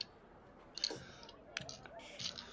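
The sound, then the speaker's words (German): A die clattering onto a sheet of paper and rolling back off during a tabletop role-playing game: a few light, quick clicks and taps in an irregular burst, fairly quiet. “Das war ein Natural 20 und dann ich, ist es auf mein Papier rauf und wieder runtergerollt und jetzt ist es eine 5.”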